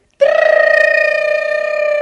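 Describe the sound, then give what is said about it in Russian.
A school bell rings for recess, a loud sustained buzzing tone with a fast, even flutter that starts suddenly out of silence and keeps ringing to the end. “Это что, звонок на веселый урок? Нет, на перемену.”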